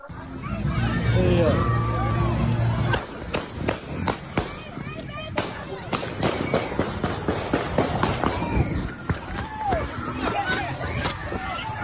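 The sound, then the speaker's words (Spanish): Gunshots near the England team hotel in Kansas: many sharp cracks in irregular, rapid succession, following and mixed with a crowd's babble of voices and hurried movement. “Estáis viendo las imágenes de un vídeo aficionado que corre y que va grabando mientras escuchan los sonidos de los disparos.”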